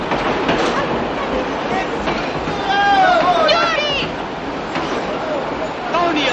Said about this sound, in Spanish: Al día siguiente en la estación de Moscú.